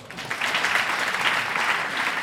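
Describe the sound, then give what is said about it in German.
Live audience clapping on request, a dense and steady burst of applause that holds at an even level for about two seconds with no voices over it. “Wer von euch war schon mal in Wien? Einmal klatschen.”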